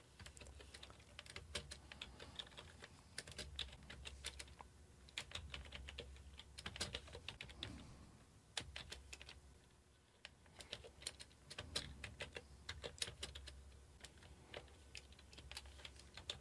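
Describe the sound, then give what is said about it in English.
Keystrokes on a Commodore VIC-20 computer keyboard: many quick, quiet clicks in irregular bursts separated by short pauses, with a low hum underneath at times. “And we'll type the Run command.”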